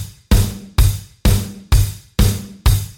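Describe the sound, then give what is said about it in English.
A four-on-the-floor drum beat with extra bass drum hits, a punchy kick landing on every beat in an even, driving pulse of about six hits, each with a bright crack over the low thump. “When you add the extra bass drum hits, it sounds like this.”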